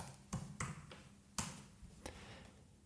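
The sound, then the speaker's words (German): Keyboard typing comes as a few sharp, separate clicks, spaced irregularly over a faint low hum. “tippst du jetzt einfach mal”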